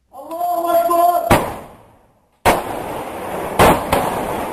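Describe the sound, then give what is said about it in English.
Gunfire from Syrian rebels shooting in the streets of Aleppo, caught on amateur video: four loud, sharp bangs, the last two close together, with a raised voice heard before the first shot. “Here's the sound from some amateur video uploaded to YouTube on Sunday that shows Syrian rebels apparently opening fire in the streets of Aleppo.”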